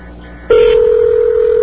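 A telephone call on a call-in line sounds as a steady, loud single telephone tone. It starts abruptly after a brief stretch of faint line hiss and holds unbroken to the end.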